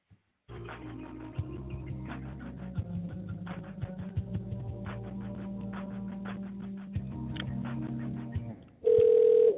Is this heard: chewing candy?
no